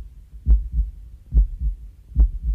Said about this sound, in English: I forgot that the heart doesn't beat in tempo.